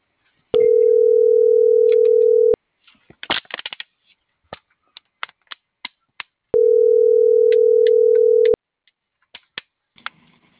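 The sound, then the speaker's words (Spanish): Telephone busy signal on a call that won't go through: a steady, loud electronic tone sounds twice, each lasting about two seconds, with light clicks and taps in the gap between them. “les marqué, pero no entra la llamada”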